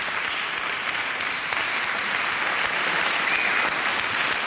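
A studio audience applauds after a comedy sketch: dense, steady clapping that holds at an even, full level throughout, with no voices standing out.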